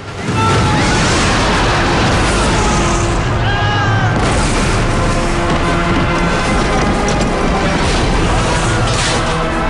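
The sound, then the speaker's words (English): Booming explosions of a dragon's fireballs slamming into a market square and sending debris flying. Loud, continuous rumbling and crashing fills the whole stretch without a break. “Fireballs hit the market square, sending people and debris flying.”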